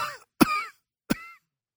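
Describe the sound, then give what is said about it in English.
Two sharp coughs, each a sudden burst that trails off within a fraction of a second, separated by a short pause, with the tail of a similar burst at the very start; no talk. “I'm just a temporary cough. That's all it was.”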